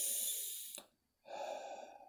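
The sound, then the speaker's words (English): Deep breathing, in through the nose and out through the mouth: two long, soft, airy breaths separated by a short silent pause. “let's take some deep breaths, shall we? Go ahead and breathe in through your nose and out through your mouth.”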